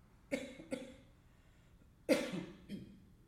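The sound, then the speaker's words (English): Four breathy exhalations through the nose with lips closed and teeth held apart. Each is a short, resonant puff that fades away. The first two come close together and the last two follow after a pause. “You might just close the lips, but keep the teeth wide and keep that space in the mouth as you exhale through the nose.”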